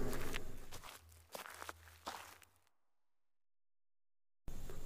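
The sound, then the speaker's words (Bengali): Footsteps walking along a road, a few dull, scuffing steps over a dense, noisy wash of sound with a low hum, which then drops to near silence before the noise returns abruptly. “ওই সোনার হার নিয়ে রাস্তা দিয়ে হাঁটতে থাকে”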